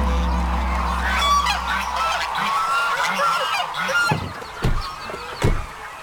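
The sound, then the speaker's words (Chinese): Honking of lion-head geese, China's largest goose breed, heavy-boned with brownish plumage and a black fleshy knob on the head. Many loud, nasal honks overlap in a noisy flock chorus, with a few sharper bursts near the end. “身披棕榈，骨架粗壮，头顶黑色肉冠，这是中国最大的鹅，狮头鹅。”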